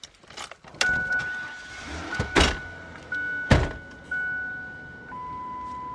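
A car in a small village of about 600 gives several heavy thumps and clunks at uneven intervals, with a steady electronic chime tone running underneath. The sounds are fairly quiet and no one speaks.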